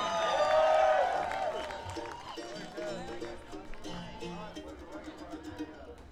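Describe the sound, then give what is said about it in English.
Audience applause and cheering for a guitarist at a live concert with guitar and mandolin players, loud at first and then fading away as a man starts talking. “One more big round of applause.”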